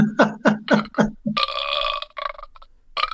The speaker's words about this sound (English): That sounded like a burp to me too, man.